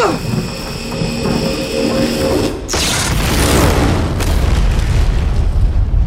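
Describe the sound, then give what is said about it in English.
Explosion destroying the command tower of a jungle colony: a steady mechanical hum gives way to a sudden loud blast about two-thirds in, followed by a heavy, sustained low rumble to the end. “Despite her efforts, though, the colony itself is severely damaged when the command tower is destroyed. Chip and Mateo barely survive that blast”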